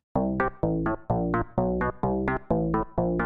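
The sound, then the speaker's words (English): An octave bass line in a disco rhythm alternates steadily between a low note and a higher one, repeating the offbeat hi-hat pattern with full, sustained tones. “So they were talking about an octave bass line replacing the hi-hat, which would sound like this.”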